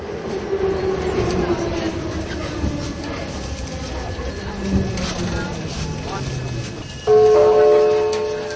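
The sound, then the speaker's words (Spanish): A Prague metro train arriving at a station, with a continuous rolling rumble and rail clatter, then a louder chime of sustained tones near the end. “Y ya viene el tren del metro, už přijíždí vlak metra.”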